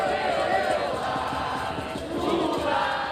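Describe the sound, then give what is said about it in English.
A dense crowd of thousands of supporters cheers and shouts at a political campaign rally for Lula in São Paulo, Brazil, a loud, continuous roar of many voices that holds steady for the whole stretch. “Thousands of supporters cheered Lula as he held his first campaign rally in Brazil's largest city, São Paulo”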